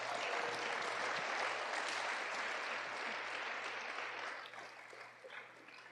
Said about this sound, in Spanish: Dale un aplauso a Dios.